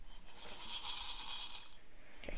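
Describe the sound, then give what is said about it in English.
Jelly beans swish and rattle inside a plastic toy ball in one continuous, fairly loud hissing rush that swells and then fades, with no talk. “Swish these around. They're jelly beans inside this Pokemon ball. Swish them around for me.”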